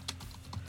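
Typing on a computer keyboard produces two faint, crisp keystroke clicks about half a second apart over a low background hum.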